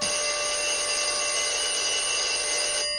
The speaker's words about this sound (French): Le téléphone sonne. Je décroche.